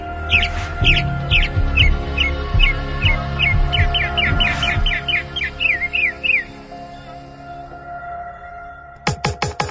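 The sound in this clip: Wild birdsong: a rapid, repeated series of high, bright chirps over a low rumbling background. It ends with a few sharp, loud clicks.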